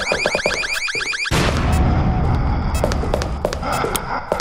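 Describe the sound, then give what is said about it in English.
Video game bombs being launched and exploding: a rapid, repeating electronic warble, then a sudden loud blast that breaks into sustained rumbling noise with scattered sharp clicks and bursts. “Three bombs. I forget how you launch bombs. Let's try mine.”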